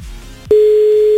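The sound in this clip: A steady telephone line tone plays as a radio listener is called. After a brief low rumble, a single even-pitched tone begins about halfway through and holds unbroken and loud to the end.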